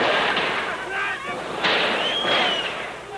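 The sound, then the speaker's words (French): Machine-gun and rifle fire on a crowd at night during the fall of the Ceausescu regime in Romania forms a dense, continuous roar in a rough recording. Raised voices cut through the noise. “C'est le son rapporté par un reporter autrichien de ce qui s'est passé dans la nuit de samedi à dimanche. Sans prévenir, on tire à coups de mitraillette et de fusil sur la foule.”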